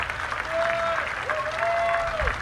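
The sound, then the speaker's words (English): Applause from a minor-league baseball crowd as a pitcher tips his cap and heads off the field: a dense, steady wash of clapping and cheering that holds throughout. “And they're not only applauding today, they're applauding what he's done this season as an Indianapolis Indian.”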